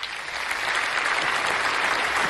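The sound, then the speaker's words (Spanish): An applause sound effect gives dense, continuous clapping from many hands. It swells slightly after the start and then stays full and even throughout, with no voices standing out. “Esto se merece un aplauso. ¿Dónde están los aplausos aquí? Vamos a ver. Los aplausos, ¿dónde están?”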